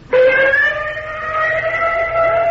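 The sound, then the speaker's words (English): Ambulance siren sounding with a loud, sustained wailing tone that starts abruptly and holds a near-constant pitch for a couple of seconds, heard on its own. “Golly, the ambulance.”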